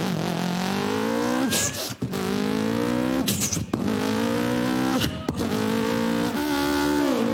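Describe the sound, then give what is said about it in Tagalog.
A Yamaha YZ125 dirt bike engine revs hard and off-road in several rising runs, its buzzing pitch climbing each time, with brief dips and breaks between the pulls. The engine stays loud throughout. “YZ125. Uy, yeah, dirt bike.”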